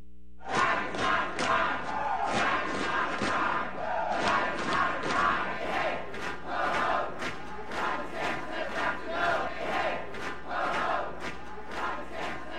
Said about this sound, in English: That's the sound of an estimated 300 drag queens and their supporters storming the Florida Statehouse on April 24th.